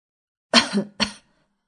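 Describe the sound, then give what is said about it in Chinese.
Two light coughs, the first slightly drawn out and the second shorter, then silence. “易君谦轻咳了两声”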